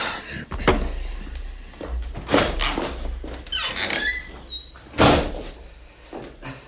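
A door opens with a few dull knocks and thumps and a drawn-out, high-pitched hinge squeak in the middle. A final thud follows, with no talking.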